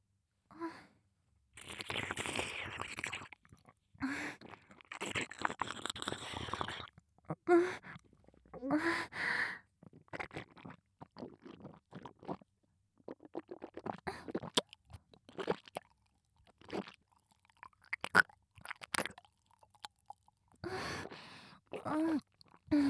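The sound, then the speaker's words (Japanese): Close, quiet eating and chewing of food, with many irregular crunchy bites and wet mouth noises that come in clusters and pause briefly now and then. “しっかりと近くで聞いていてください。それではいただきます。”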